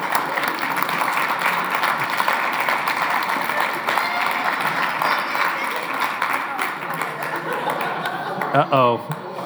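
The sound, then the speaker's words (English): Audience applause for people on stage at an Advent gathering, a steady mass of clapping with scattered chuckles, giving way to a voice near the end. “So can you guys give them a hand?”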